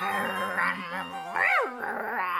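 Dogs growling in one continuous rough, rumbling stretch, with a brief yelping whine in the middle that rises and then falls.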